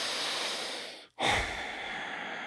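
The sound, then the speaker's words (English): Nasal breathing during a relaxation tapping exercise: a long, soft, airy breath, a brief silent pause, then another breath that swells and slowly trails off, quiet and without talk. “Breathe in your nose.”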